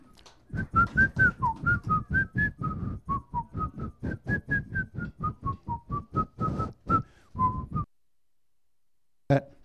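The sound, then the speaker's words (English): A crowd whistles a simple folk tune together in unison, many short bright notes rising and falling in a steady marching rhythm for about eight seconds, then stopping, followed by one brief click near the end. “So everybody whistle Yankee Doodle.”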